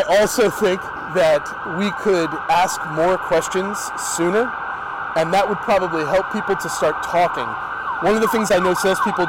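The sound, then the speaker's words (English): Emergency vehicle siren passing outside in Toronto, Canada: a steady, wailing tone running beneath continuous conversation between people for the whole stretch. “The Canadian heroes don't wear capes. They ring bells and sirens to go save lives.”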